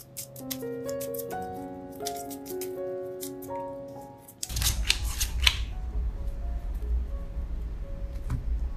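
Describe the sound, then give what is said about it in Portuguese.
Oracle cards drawn from an angel-answers deck: a rustling, shuffling noise begins about halfway through, after a soft melodic passage of music. “E vou tirar duas cartas aqui desse oráculo das respostas dos anjos.”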